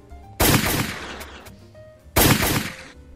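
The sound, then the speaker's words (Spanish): Two gunshots from sniper target shooting: two loud, sharp bursts spaced under two seconds apart, each trailing off in a long, fading rumble, with no voices. “Los francotiradores estarían muy felices practicando tiro al blanco, ¿no?”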